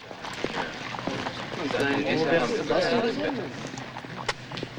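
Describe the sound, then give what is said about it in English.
Horses pulling Amish buggies trot along a town street, their hooves making light, irregular clip-clopping beats while voices talk over the middle of the stretch. “Horses pulling similar buggies trot to and fro.”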